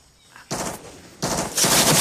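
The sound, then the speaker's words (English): Machine-gun fire into a jungle during a war-film scene with soldiers: a short burst, a brief pause, then a louder stretch of sustained rapid fire that keeps building, with no voices. “The soldiers duck for cover. One of their own is firing into the jungle.”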